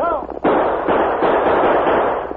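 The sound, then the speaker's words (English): Gunfire from two guns, fired by a rider on horseback: a sudden loud onset of dense, overlapping shots that roars on continuously, after a brief voice at the start. “Roosevelt spurred his horse, drew both guns, and opened fire”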